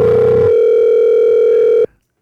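A telephone tone heard while placing a call: one steady, loud, even-pitched tone holds for nearly two seconds, then cuts off abruptly into silence.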